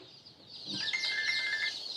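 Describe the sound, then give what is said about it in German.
Chicks and chickens in a poultry rearing barn on a farm in Lower Saxony peep in a dense, high-pitched chorus that swells slightly and carries on steadily at a fairly faint level. “Nachmittags auf dem Geflügelhof im niedersächsischen Köhlau. Christine Bremer impft im Aufzuchtstall ihre Küken.”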